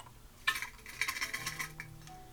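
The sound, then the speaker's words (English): Ice cubes dropped into a small thermos: several light clinks and rattles in quick succession, fairly faint, with a soft clatter as the pieces settle. “Sounds like I'm mixing fucking drinks over here. Mix it up, man. Nah, I'm literally just getting ice on my little thermos for my pre-mixed booze.”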